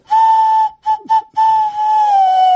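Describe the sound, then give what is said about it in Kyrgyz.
A traditional Kyrgyz clay whistle sounds a loud, pure tone with bright overtones: one long blast, two short quick ones, then a final long note whose pitch sags slightly at the end. “Бул чопочор баягы бала кезде ушундай бир ышкырыктар болчу эле, ошон үчүн үн чыкты го.”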